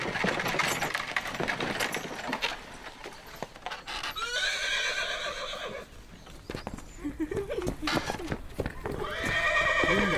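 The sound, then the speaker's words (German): A horse-drawn carriage approaches with a continuous clip-clop of hooves, and the horses give loud whinnies partway through and again near the end. “Ui, da kommen Sie schon. Achtung, Kutsche!”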